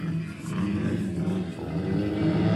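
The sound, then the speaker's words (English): Dirt bike engine revving its throttle with a throaty, steady low drone that swells slightly louder toward the end, with no clear breaks between revs. “Oh, that sounds like a throaty throttle.”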